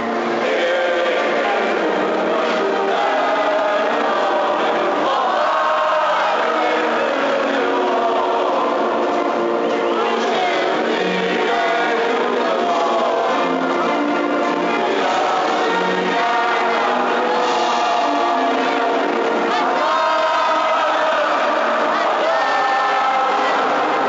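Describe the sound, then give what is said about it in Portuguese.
A stadium crowd sings the national anthem before a Portugal football match, a dense, loud, sustained wall of many voices that carries on without a break for the whole clip. “E por isso hoje vamos escutar como se pode contar a história de um jogo apenas com sons provenientes de dentro do próprio campo. Antes do início da partida, o hino nacional.”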